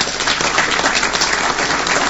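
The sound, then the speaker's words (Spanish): Applause for officials who doubled production of animal vaccines, heard as a short burst of steady clapping from a group, even and fairly loud throughout with no speech over it. “sería bueno que aplaudiéramos a los funcionarios que con el mismo presupuesto doblaron la producción de hemovacunas”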